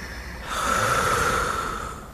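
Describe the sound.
A deep belly breath during a stress-relief breathing exercise, drawing in through the nose and out through the mouth, heard as one long, steady, airy rush of air lasting a couple of seconds after brief quiet.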